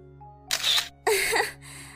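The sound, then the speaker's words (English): A camera shutter fires as a selfie is taken: two bright, crisp mechanical bursts in close succession, each about half a second long, followed by a fainter tail over a steady low hum. “This is a wrong time for a selfie, but I don't know, maybe it'll help me feel better.”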